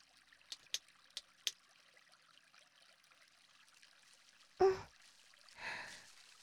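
Water is poured over a person being washed: a short, soft splashing pour near the end. Four faint ticks sound earlier and a brief sharper burst comes just before the pour, all quiet against near silence.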